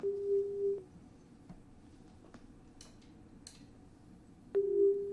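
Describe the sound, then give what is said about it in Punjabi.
A phone disconnection tone after a caller's line drops during a radio call-in request show: two steady mid-pitched tone bursts, the first under a second long, the second coming after a long, quiet gap broken by a few faint clicks. “ਉਹਨਾਂ ਦਾ ਸੰਪਰਕ ਹੈ ਜਿਹੜਾ ਸਾਡੇ ਨਾਲ ਉਹ ਟੁੱਟ ਗਿਆ”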